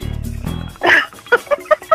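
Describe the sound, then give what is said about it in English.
A person's voice imitates the little panther growl from the Sex Panther cologne gag in Anchorman. A low, raspy growl lasts under a second and is followed by a few short, clipped bursts. “I like when Paul Rudd goes Sex Panther, it works 60% of the time, all the time, or something. 100% of the time, something crazy. And they have like the little panther growl, where it's like”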